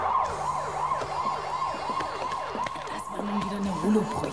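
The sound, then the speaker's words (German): A police patrol car's siren wails as the car races past, its loud tone sweeping up and down repeatedly over the rumble of road traffic. “Ein Streifenwagen raste an uns vorbei mit heulender Sirene.”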